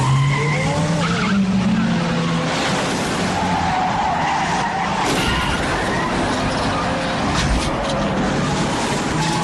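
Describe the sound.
Tires screech as a car accelerates hard during a chase, a loud, continuous squeal with wavering pitch over roaring engine noise.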